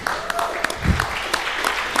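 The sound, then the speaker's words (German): Applause interrupting a timed talk about an excuse-generator project, irregular individual claps and a few sharper slaps at moderate loudness, with some talk mixed in. “Ja, das geht jetzt von meiner Zeit ab, das Klatschen.”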